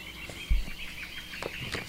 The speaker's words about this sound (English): we listen to the soothing sounds of birds and frogs